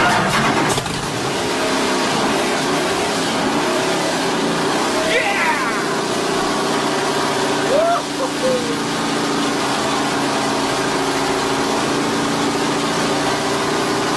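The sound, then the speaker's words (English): A Can-Am race car engine fires up, with a brief unusual filling noise before catching into a loud, steady, rough idle with occasional revs, the engine running continuously throughout. “This is actually a recording of Bruce McLaren's Can-Am firing up. Just listen to the very start and you'll hear this very unusual noise.”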